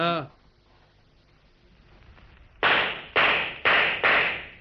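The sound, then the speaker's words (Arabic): Gunshots fired at a prickly pear target: four sharp, loud cracks in quick succession after a brief voice and a quiet stretch. “اضربوا كده انتوا ظباط، الشاطر يضرب التينة الشوك اللي هناك دي ويصيبها.”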